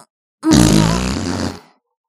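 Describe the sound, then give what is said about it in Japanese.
A loud fart bursts out alone, a low buzzing blast lasting just over a second that trails off, with silence before and after. “ほら、くさくさおなら攻撃よ。くさいくさーい、おならくさーい。”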